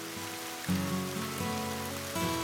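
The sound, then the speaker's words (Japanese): Gentle rain in the rainy season falls on the ground outside a window as a soft, steady hiss, faint throughout, with low sustained tones beneath it. “窓の外では灰色の雲から降り注ぐ雨がしとしとと優しく地面を濡らしていた。”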